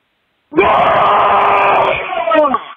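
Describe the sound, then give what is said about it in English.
A loud human scream, one long sustained cry that starts abruptly after a short silence and then trails off into a shorter, wavering tail. “this scream goes out to my brother Bill”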